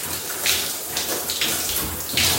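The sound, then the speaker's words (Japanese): Running water splashes over a sponge as soap foam is rinsed off it. The steady rush of water rises into a few brief, brighter bursts of splashing. No voices are heard. “で、今スポンジ、泡が残っているので、ちゃんと泡切れをして、泡切れさせます。”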